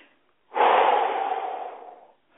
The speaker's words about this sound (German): Einatmen, ausatmen, weit werden.